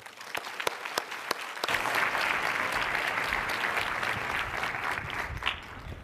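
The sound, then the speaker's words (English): Applause from a conference session audience welcoming a speaker to the stage: a few scattered claps quickly swell into loud, dense, sustained clapping that holds steady to the end. “Please put your hands together and offer a warm welcome to Sally Helgenson.”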